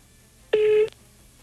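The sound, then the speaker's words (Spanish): A single telephone tone, steady and mid-pitched, sounds once while someone calls a friend. It lasts about a third of a second and stands alone against a quiet background. “Vamos a intentar otra vez. Amigo, te estoy llamando.”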